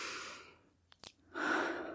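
Deep breathing: two long, airy breaths separated by a short quiet gap with a few faint clicks. The second breath is a strong, full intake of air.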